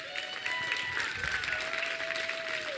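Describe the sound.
An audience applauds to welcome a speaker to the stage at a ministry gathering: dense, steady clapping throughout, with sustained tones running beneath it.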